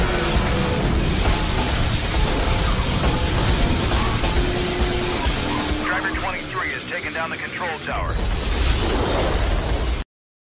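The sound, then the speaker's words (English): Explosions of destructible scenery in a racing video game trailer form a dense, loud, continuous barrage of booms, bursts and shattering debris. The roar dips briefly near the end, then surges again before cutting off abruptly. “it's a racing game, but the novel mechanic it had was that players could activate destructible scenery and make things explode to try and get an advantage in the race by making things fall on your opponents.”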